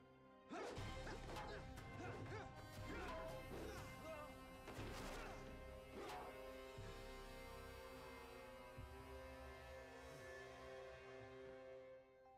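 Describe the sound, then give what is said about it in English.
A sword slash being blocked gives faint sharp clashes and whacks, many quick impacts in a cluster, then a lingering low hum as the blows stop. “That was the special move. He blocked a sword slash.”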